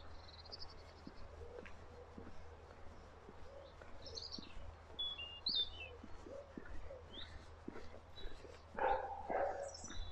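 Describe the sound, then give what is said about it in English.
A playful dog barks a few times over steady background noise, while birds chirp on and off throughout. “Playful dog bark.”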